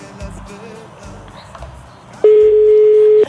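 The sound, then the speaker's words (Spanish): Phone call being placed, with faint murmuring voices and small clicks, then one loud, steady electronic tone holding for about a second before cutting off. “Estamos llamando a Patty para ver si nos contesta.”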